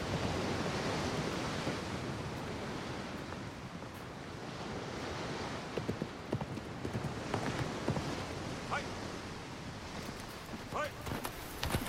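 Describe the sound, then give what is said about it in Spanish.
Horse hooves clip-clop amid steady surf and wind noise, with a scattering of irregular hoof strikes that grow sharper and more distinct in the second half. “¿Trajo su caballo? Sí, desde Ishijima.”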